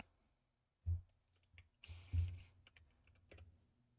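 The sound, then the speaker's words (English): Typing on a computer keyboard: a few sharp, irregular key clicks and clacks, fairly faint and alone, with small bursts of quicker taps between louder strokes. “I'm just gonna type it in the chat.”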